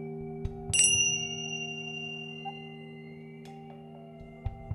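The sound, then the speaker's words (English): Tingsha bells are struck once during an energy-clearing ritual, giving a bright, high metallic ring that shimmers and fades over about a second. A faint steady low hum continues underneath, with a few soft clicks later. “while we wait, we're going to do some removal of a stagnant energy with the tincture bells.”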